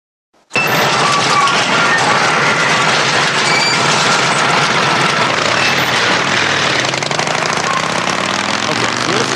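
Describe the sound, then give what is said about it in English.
A motorcycle engine bursts into a loud, steady rumbling run after a brief quiet moment, holding an even, dense roar for about nine seconds without clear revving. “Daryl Dixon, he rides a pretty badass bike that is obviously designed just for this scenario. You want to hear it?”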